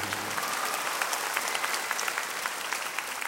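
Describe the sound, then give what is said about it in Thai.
Audience applause welcoming a guest onto the stage of a Thai show, with dense, steady clapping held at a moderate, even level throughout and no voices over it. “ตบมือนะครับก็ยินดีต้อนรับท่านมุ้ยนะครับ”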